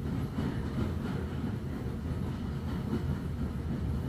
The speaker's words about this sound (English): As you listen to the Hogwarts Express.